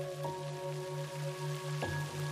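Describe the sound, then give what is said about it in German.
Rain falling on rain-soaked, muddy ground: a steady, soft pattering hiss that continues evenly throughout, with a faint constant hum beneath it. “Der Regen hat den Erdboden völlig aufgeweicht. Alles ist ganz matschig.”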